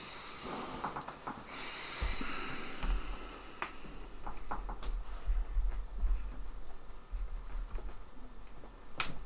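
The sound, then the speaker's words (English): Handwriting with a pen, heard as faint, scratchy strokes and soft taps over a low background rumble, with no voices. “I've been writing this since the, the dwarf fight, so.”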